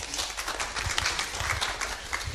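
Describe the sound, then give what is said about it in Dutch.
Applause from an audience after a presentation: dense, steady clapping that fills the whole moment without a break. “Bedankt en applaus voor jullie.”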